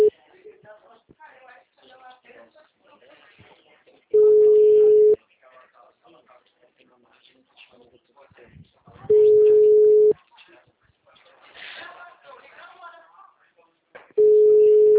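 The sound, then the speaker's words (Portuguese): Ringback tone of an outgoing telephone call: three steady, one-second beeps about five seconds apart, with people talking faintly in the gaps. “Tá só atendendo. Só tá chamando, quer dizer.”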